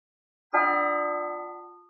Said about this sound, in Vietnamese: Tiếng chuông từ hoàng cung xa xôi cuối cùng cũng truyền đến hồ Nhạn Minh.